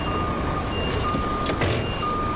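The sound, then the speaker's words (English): A truck's reversing alarm beeps repeatedly at an even, high pitch as a wagon backs up in a farmyard, over a continuous low engine rumble. “do you mind backing up so that that wagon can get through and go over there?”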